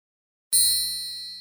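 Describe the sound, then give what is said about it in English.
One bright, high musical note rings out in a hall, struck once after a short silence and left to decay slowly as a clean, sustained tone. “Ting! Tristan's one little note rang through the hall.”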